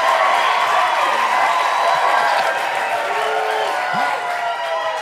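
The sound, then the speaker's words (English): A live studio audience on a stage in Gowanus, Brooklyn cheers and applauds: loud, dense clapping mixed with whooping voices, sustained throughout and easing a little near the end. “we are sitting on a stage being looked at by a live studio audience.”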